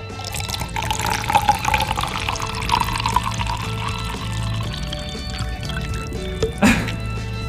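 Liquid pours from a bottle into a glass as a continuous splashing, gurgling stream that runs for several seconds at a fairly even level.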